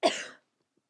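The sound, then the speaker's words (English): A single cough bursts out, short, loud and breathy, lasting about a third of a second and then giving way to silence with no talking. “at first, I didn't know if it was a sneeze and I should say bless you. It was a cough. And then I realized it was a cough.”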